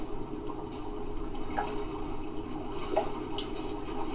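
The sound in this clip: Water sloshing and splashing as a character swims in a video game. The watery wash is steady and continuous, with a few small drip-like plinks scattered through it. There is no talk.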